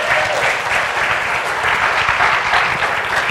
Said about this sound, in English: And would you give a warm welcome to Rabbi Uri Korshan?